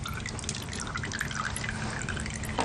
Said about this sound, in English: The lemon juice without the seeds. Come on out now. There we go.